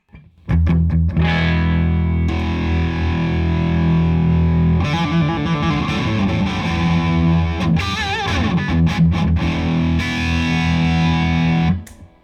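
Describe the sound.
Distorted electric guitar played through a limited edition chorus flanger pedal with the chorus switched off: loud, sustained ringing chords broken by a few short choppy strummed bursts, heard alone without voices.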